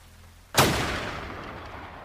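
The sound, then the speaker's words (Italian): One loud gunshot from an action movie trailer, a sudden sharp crack that rings out into a long, slowly fading tail. “Il trailer di The Hunter, che come il film ha più spari che dialoghi”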